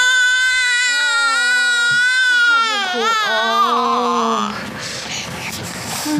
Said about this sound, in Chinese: 不哭不哭， 不哭了，哎，好，哎，好好好，别哭了啊，哎，哎，怎么回事啊？怎么老哭啊？ 没吃饱呗，当然哭了。